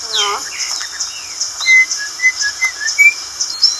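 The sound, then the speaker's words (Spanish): A person whistles in imitation of a blackbird's song, a string of short, high, warbling notes with fluttering trills, loud and clear with no talk. “¿Sabe qué pájaro es ese? No. Es un mirlo. ¿Sabe cómo canta?”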